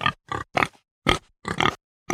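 Pig grunting in a series of short, loud, throaty bursts separated by brief silent gaps, uneven in rhythm.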